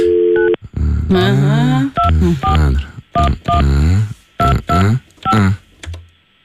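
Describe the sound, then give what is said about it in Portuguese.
Touch-tone telephone dialing beeps sound in a quick series of short, loud bursts, mixed with other warbling tones between the keypresses. “atenda-me o telefone e diz Show Me The Money”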